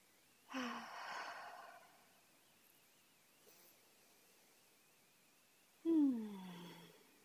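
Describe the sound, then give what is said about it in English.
Slow, deep breathing, drawn in through the nose and let out through the mouth: two airy, hushed breath sounds several seconds apart, the second ending in a sighing exhale that drops in pitch. “Just take an inhale through the nose and exhale out the mouth. Just take a couple more breaths just to get into our bodies.”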